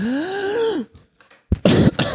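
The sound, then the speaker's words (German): A few harsh, breathy coughs into a microphone come in short bursts near the end, after a drawn-out voiced sound and a brief pause. “Da muss ich gleich mal das Mikrofon husten.”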